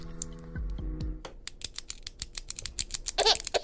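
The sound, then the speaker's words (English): A retractable clicky pen clicked over and over: many sharp, dry clicks in a quick, uneven burst, fairly loud, after a short low tonal sound at the start. “The only toy I have is this, clicky pen.”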